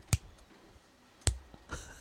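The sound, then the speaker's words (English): A person imitates a female cicada's slow clicking with a few sharp, isolated clicks spaced far apart, each brief and crisp against near silence. “The female cicadas just click really slowly, so it's just like”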